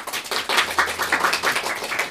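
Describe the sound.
Audience applause at a live show: a brief, dense patter of many crisp claps overlapping at a fairly loud, steady level with no voices.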